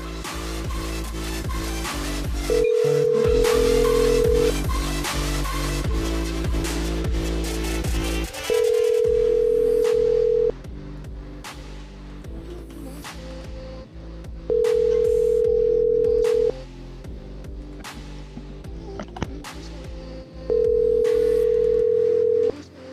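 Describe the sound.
Telephone ring tones as a call rings through to a voicemail box: four long, steady, mid-pitched buzzes repeat at even intervals over a dense, continuous backdrop of other sound.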